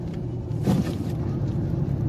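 A car drives in close toward someone, heard as a steady low engine rumble that swells briefly as it nears and then settles back.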